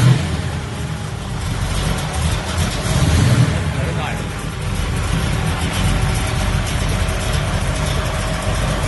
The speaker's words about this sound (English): here we are at Precision Auto Works with another successful 383 motor rebuild. Let's hear how she runs. Fires right up.